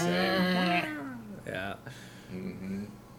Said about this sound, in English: I have a cat that's upset we're not in bed yet, and she's just outside the door yelling.